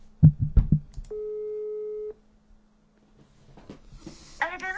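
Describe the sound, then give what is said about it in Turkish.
A blocked call produces a telephone busy tone: one steady, mid-pitched beep lasting about a second. It follows a few short voice sounds, then comes a quiet gap and faint rustling before other sounds return. “Ay bak engellemiş, bak birini arıyorum mesela, adam beni engellemiş direkt.”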